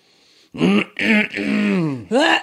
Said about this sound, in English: What kind of animal clears their throat like that? It's a real dad move.